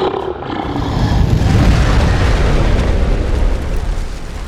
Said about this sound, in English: Saliva hissed and turned to vapor as she gathered up a bonfire in her belly, and then, canting her head to one side, unhinged her jaw before blasting out an inferno.